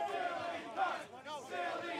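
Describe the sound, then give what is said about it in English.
A wrestling crowd chants insults at a judge, loud rhythmic massed voices repeating a short phrase with brief dips between repetitions. “Crowd chanting silly cunt towards Judge Joe Dredd.”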